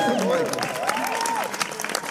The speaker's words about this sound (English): Yes, a round of applause for puberty.